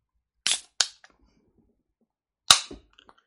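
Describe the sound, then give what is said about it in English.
A can of beer being cracked open: a few sharp snaps with short hissing fizz, the last one loudest with a brief trailing fizz. “But first off, I'm going to crack this beer.”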